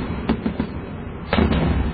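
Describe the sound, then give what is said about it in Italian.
Fireworks lit and fired one after another, several sharp pops spaced through a constant rough rumbling background, with a denser cluster of bursts near the end. “C'è il rumore della polvere da sparo.”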